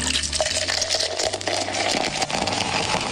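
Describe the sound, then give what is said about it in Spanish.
Cold beer poured into a glass and filled right to the top until foam forms, a steady splashing, gushing liquid flow at moderate volume with no talk. “Ya para allá, hasta lo último, se quedó, muchacho, hasta la espumita. Era gente llenando el vaso de cerveza bien fría.”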